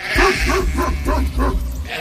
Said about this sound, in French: Le reportage de Laurent Berthaud commence donc forcément par la tonte du mouton